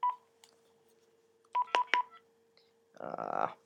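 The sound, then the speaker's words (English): Telephone keypad tones from dialing a landline: one short tone, a pause, then three quick beeps in a brisk row, clear and moderately loud over a faint steady hum. “And the next thing I'm going to do is call myself from our landline.”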